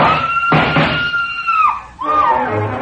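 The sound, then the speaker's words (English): A high, frenzied scream fills a house: one long, loud, piercing cry that falls in pitch and fades, followed by a second shrill cry. “scream filled the house, high and frenzied.”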